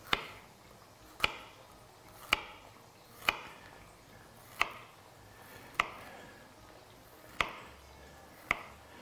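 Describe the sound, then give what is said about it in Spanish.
A knife cuts food into fillets with eight crisp, sharp knocks spaced at roughly even intervals, each a brief click over a quiet background. “Lo voy a cortar así en filetes.”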